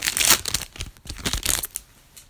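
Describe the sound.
Crinkling and tearing of a trading card booster pack wrapper as it is opened, with several sharp papery bursts and scrunching sounds over about two seconds, then quieter rustling at the end.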